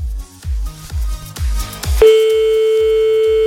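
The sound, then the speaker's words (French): A telephone line tone sounds while another number is called. A short run of regular low thumps gives way midway to a loud, steady, unbroken tone that holds to the end. “Bon, on appelle un autre, parce qu'on est tombé sur le répondeur, c'est pas grave.”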